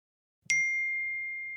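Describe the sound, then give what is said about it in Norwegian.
A text message notification on a phone: a single bright, high ding that rings on and slowly fades, with nothing else heard. “Tekstmelding fra Samira 2 MKA. Hva skal jeg gjøre?”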